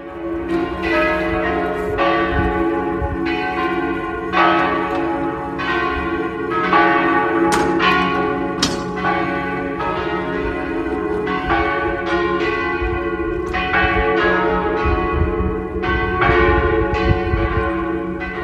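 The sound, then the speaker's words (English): Church bells ringing in Venice, many loud, overlapping strikes with long, shimmering decays that blend into a continuous peal of mixed pitches, with no talk. “I'll leave you with the beautiful sounds of Venice.”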